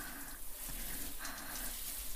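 Running water while someone washes in a bath: a steady, even hiss of flowing water that holds at the same moderate level throughout, with no voices.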